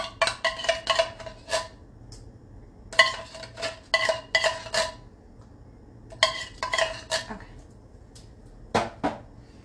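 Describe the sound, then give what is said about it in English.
Scraping and clinking of a utensil stirring food around in a pan with tomatoes: a few clusters of quick, rattling metallic strokes separated by short pauses, fairly loud and crisp. “mix this all around.”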